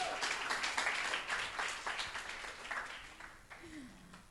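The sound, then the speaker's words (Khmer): Applause from an audience welcoming a woman invited up to tell her story at a talk, a dense, steady patter of many hands that gradually thins and fades toward the end. “So give her an applause”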